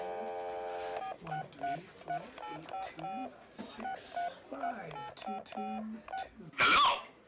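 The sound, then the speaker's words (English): Telephone keypad tones as a ten-digit number is dialed: a steady tone at first, then a quick run of short dual-tone beeps of shifting pitch, ending in a louder burst. “10-digit number here. Let me just dial this up.”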